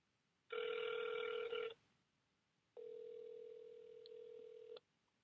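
Telephone tones sound as a call is dialed to a number that turns out to be disconnected. Two long, steady electronic tones play with a gap between them. The first is louder and brighter, the second steadier and softer, with no talk.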